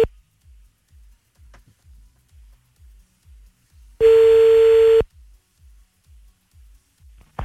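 A telephone line tone sounds as a call is placed, one loud, steady mid-pitched beep lasting about a second, framed by soft, evenly spaced low thumps before and after.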